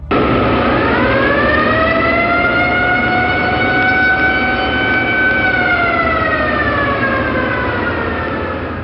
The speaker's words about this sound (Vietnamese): Đúng lúc ấy, chợt nghe tiếng còi báo động máy bay tập kích ré lên khắp khe núi.